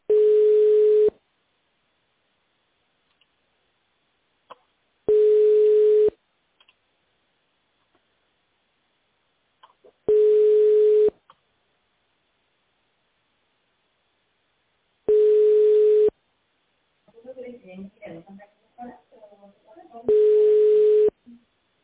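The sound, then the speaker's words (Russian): Telephone line tone: five long, steady, low-pitched beeps, each about a second long, evenly spaced with silent gaps of several seconds, and faint voice-like murmurs before the last beep. “Please hold on for answer or call back later. The number is busy.”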